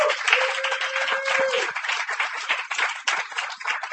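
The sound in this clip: An audience applauds a performer at a reading, with many hands clapping in a dense, steady patter that carries on throughout at an even level.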